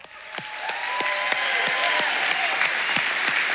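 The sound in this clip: A church audience applauds and cheers to welcome the pastor before the sermon at a New Hope service. The clapping is dense and sustained and builds quickly at the start, with a few sharp individual claps standing out.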